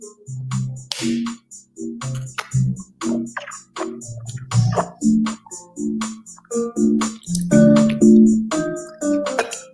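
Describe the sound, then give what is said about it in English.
A voice imitates whisking eggs for a stuffing binder with a fast, rhythmic run of short, pitched mouth bursts, many in a row at a steady, even pace throughout. “we're going to bind our stuffing with an egg or two. And I'm going to do the whisking in my mouth.”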